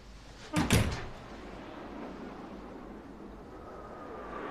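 A door being unlocked and opened: a quick cluster of two sharp clunks near the start, then a quiet, steady background hum.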